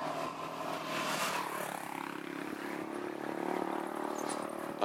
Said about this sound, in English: Jesus Christ, this fucking motorcycle's coming fast.